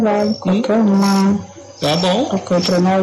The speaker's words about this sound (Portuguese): eu gostei desse cantado grilo, esse grilo que é alto, né, rapaz?